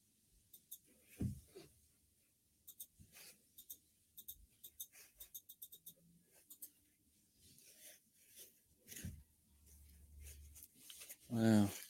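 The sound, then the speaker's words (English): Keyboard typing as someone enters a search, a string of light, dry clicks in irregular bursts, densest in the middle stretch, with quiet gaps between runs of keystrokes. “So I typed in Australian parasailing accident.”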